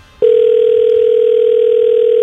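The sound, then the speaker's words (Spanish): A telephone tone during an outgoing call: one loud, steady, unbroken mid-pitched tone that starts abruptly and holds for about two seconds before cutting off. “Ahí está sonando Moisés. Dios mío, Moisés. A ver si contesta.”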